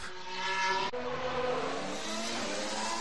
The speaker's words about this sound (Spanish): vamos a escuchar el Mercedes, que nos tiene a todos alucinados.